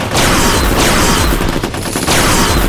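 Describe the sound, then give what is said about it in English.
Heavy gunfire erupts in a hostile jungle firefight: a loud, dense, continuous barrage of overlapping shots with booming low-end bursts running through the whole moment. “Hostile! Open fire! Open fire!”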